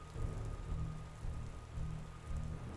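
Rain easing off into a faint, steady patter, with a soft low rumble that swells and dips a few times underneath.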